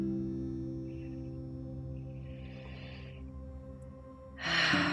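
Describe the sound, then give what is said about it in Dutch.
Slow breaths drawn in through the nose during a guided relaxation exercise. Two faint, airy inhalations are followed by a louder, rushing one near the end, all over a steady, low sustained drone. “Haal een paar keer diep adem door je neus.”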